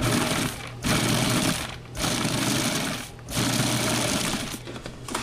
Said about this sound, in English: All right, I'm going to start grinding this up, pulsing it.